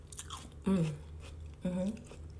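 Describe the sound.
Soft, wet chewing and biting of juicy food eaten in a bathtub, quiet mouth noises with two brief, louder voiced sounds mixed in.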